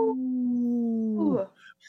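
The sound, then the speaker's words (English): A person imitates a wolf howl, holding a long, steady low vocal note that bends sharply downward and breaks off, followed by a brief, fainter voiced sound. “we always like to bring awareness to our Minnesota wolf population by saying no to the wolf with a big howl. Howl!”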